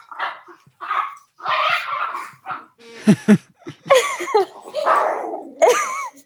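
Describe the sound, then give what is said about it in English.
A female dog gives two short, sharp barks and then high, wavering whines and yips. Voices talk in the opening seconds before the barking. “The natural sounds of podcasts. Natural. Yeah, that's my dog.”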